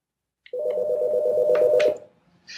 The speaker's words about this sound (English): Sorry, that's the phone here. Let me send that off.